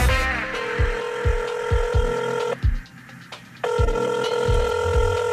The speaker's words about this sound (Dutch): En dan nemen we de telefoon nog wel eens op.